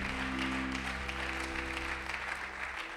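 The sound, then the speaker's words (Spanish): A church audience claps to welcome visitors, a dense, steady wash of applause throughout, over a sustained low keyboard chord that drops out just before the end. “Iglesia Nueva Vida, vamos a darle palmas”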